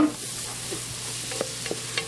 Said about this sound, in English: I'm making its braising liquid. It's going to have to braise in a liquid.